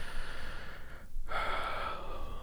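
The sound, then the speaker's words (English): A nice big deep breath, heard as a long, airy, steady inhale with a brief pause partway through before the breath continues. “So to begin with, I want you to tap on the side of your hand, take a nice big deep breath,”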